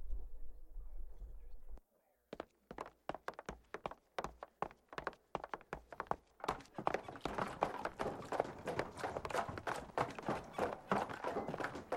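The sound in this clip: Hurried running footsteps of someone carrying a full bucket of water: after a brief silence, many rapid thudding steps follow in a steady run that grows denser and slightly louder.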